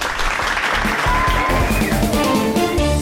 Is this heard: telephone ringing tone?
no